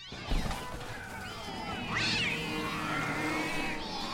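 Cats meow and caterwaul in a few drawn-out, wavering cries that rise and fall in pitch over a steady background hiss.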